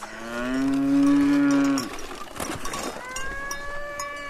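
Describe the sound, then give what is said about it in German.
A cow moos on a mountain hiking trail where the cows wear bells: one long, loud, low call lasting over a second, followed by quieter rustling and a softer, drawn-out second call. “Vorbei an Kühen, deren Glocken bimmeln”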